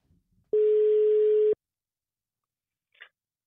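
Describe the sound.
A telephone ringback tone plays while a call is being placed: one steady, mid-pitched beep lasting about a second, then near silence and a brief faint blip.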